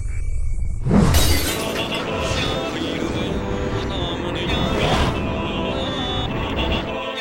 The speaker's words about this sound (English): I'll put the egg on the floor and then take a swing at it.